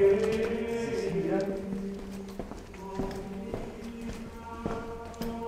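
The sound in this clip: Footsteps of a man walking ahead in a wine cellar, slow and evenly spaced hard taps following some talking at the start.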